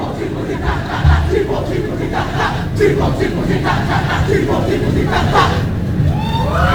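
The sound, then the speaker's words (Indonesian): A group chanting rhythmic yells on an open-air stage, a Jembrana regency delegation performing at Ardha Candra, loud massed voices pulsing in repeated bursts over a constant crowd roar. “Nih, luar biasa sekali iel-ielnya disambut dengan tangan yang meriah saking penonton.”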